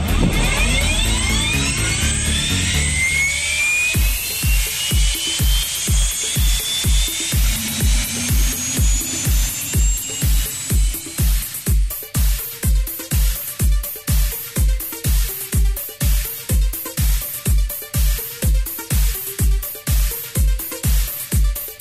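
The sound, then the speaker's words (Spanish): An aircraft engine starts up while parked before a flight: a loud whine climbs in pitch over the first few seconds, then gives way to many fast, evenly spaced heavy thumps that continue steadily. “aquí Sir Robert Mix, en Parking Q, solicito puesta en marcha para posterior plan de vuelo presentado”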